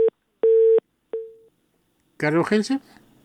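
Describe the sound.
A telephone busy tone after a call line cuts off, three steady beeps with the last one short and fading, followed by a voice speaking.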